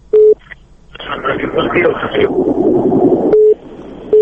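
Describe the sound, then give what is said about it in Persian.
A telephone line tone on a radio call-in program after the caller is cut off. Short, steady, low beeps sound at the start and again near the end, separated by a long stretch of noisy line hiss with voices. “تلفن قطع شو.”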